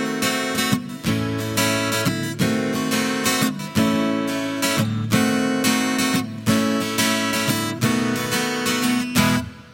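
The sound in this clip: Acoustic guitar strums the rhythm chorus riff of a song: steady, driving chord strokes in a repeating pattern with bright string ring, loud and alone, with brief dips between phrases.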